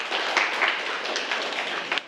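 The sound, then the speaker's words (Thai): Students in a classroom applaud a classmate for a correct answer, an even, dense patter of many hands with a few sharper claps standing out now and then. “ถูกต้องนักเรียนปรบมือให้เพื่อนครับ”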